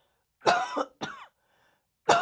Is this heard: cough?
yes